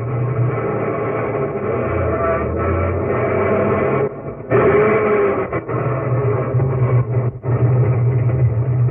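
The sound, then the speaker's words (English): A car engine rumbles steadily as the vehicle pulls up in front of a city garage and drives in, a continuous low drone with two brief dips partway through. “one morning on 53rd Street, a couple of guys were just pulling up in front of a garage. This the garage? Yeah. Go on, drive in.”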